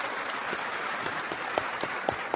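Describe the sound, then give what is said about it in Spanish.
Audience applause at a gathering: a soft, steady patter of many hands with a few sharper individual claps standing out, continuous for the whole stretch with no voices. “A Salvador y Lupita Ortiz, también un aplauso,”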